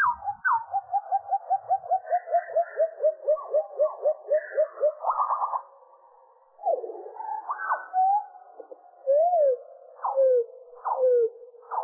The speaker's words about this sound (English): If you slow down the nightingale song and lower the pitch,